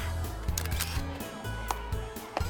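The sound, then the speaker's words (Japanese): A camera shutter clicks as someone takes photos at a summer festival. A few short, sharp clicks are spaced irregularly over a steady tonal background. “レディに断りもなくお写真を撮るのはエチケット違反でございますことよ”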